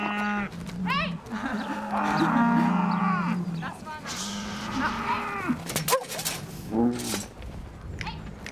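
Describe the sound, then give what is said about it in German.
Heifers and dairy cows moo on a pasture. Many loud, drawn-out lowing calls overlap and follow one another almost without pause throughout. “Die Fersen müssen den schmalen Durchlass im Zaun zur Weide finden. Und dann stehen da noch die anderen Milchkühe auf der Weide nebenan. Die sehen sie jetzt zum ersten Mal und freuen sich anscheinend.”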